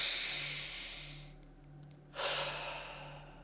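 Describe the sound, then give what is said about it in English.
A person takes a slow, airy breath during a relaxation exercise. The soft rush of air pauses briefly, then resumes, over a steady low hum. “Take a breath.”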